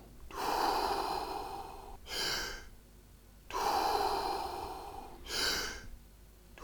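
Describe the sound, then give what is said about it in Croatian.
Slow, deep breathing in and out during a guided relaxation exercise: two full cycles, each a long airy breath followed by a shorter one, with brief pauses between. The breaths are loud and there is no talk. “Udah, izdah. Udah, izdah. U trbuhu prsa pa pustite da vas izdahne kao val.”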